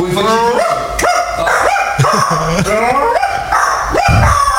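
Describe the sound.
A human voice imitating a dog, giving a run of several barks and whining yelps. Each is a sharp, rising tone, loud and closely spaced.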